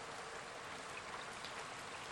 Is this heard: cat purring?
no